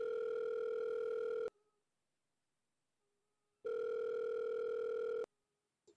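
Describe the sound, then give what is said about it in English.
Ringback tone of an outgoing phone call: two long, steady electronic rings, each about one and a half seconds, separated by a silent pause, with no talk. “Yeah, call him. Give him a call.”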